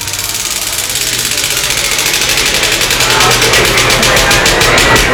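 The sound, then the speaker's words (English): A prize wheel spins during a sponsor game, making a dense, rapid, steady ticking that runs loud and unbroken for about five seconds. “let's see what happens when we do spin this wheel and see if it does land on the Belmont Senior Center”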